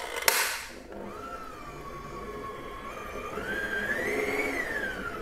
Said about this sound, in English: Okay, once you see there's no more streaks of flour, I just stop the mixing because you don't want to overwork this batter.